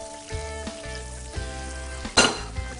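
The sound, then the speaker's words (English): Butter frying in a hot pan makes a soft, steady sizzle and crackle, broken by a few light clinks and stirring knocks of a utensil against the pan. “Little bit of butter. Little bit of butter. Oop, get it hot, get it hot. Remember, it's butter, you can't get it too hot, it'll start smoking, right?”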